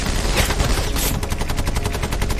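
Bren light machine gun firing along a hedge line in a long, loud automatic burst, with rapid, evenly spaced shots running together into a harsh, continuous rattle.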